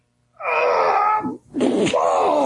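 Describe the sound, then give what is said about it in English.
A man beside a phone caller groans in two long, drawn-out moans with a steady voiced pitch, the second following a brief pause after the first. “I'm hearing groaning in the background, and I can't hardly hear you. That's the guy next to me. That's not me.”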